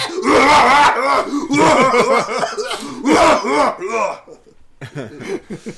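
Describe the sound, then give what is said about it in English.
A woman's attempted evil laugh turns into a harsh, raspy heavy smoker's cough, several loud, rough hacking bursts with strained, groaning voiced edges, tapering off into quieter rasps. “all of a sudden it just turns into this old man just three packs a day cough”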